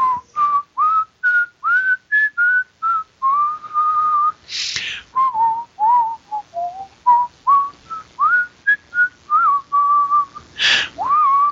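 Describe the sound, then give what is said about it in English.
A girl whistles a tune down a hallway: many short, clear whistled notes in a lively, wavering melody. The whistling is fairly loud and carries on alone without talk. “you think you hear one of the girls just kind of whistling down the hall.”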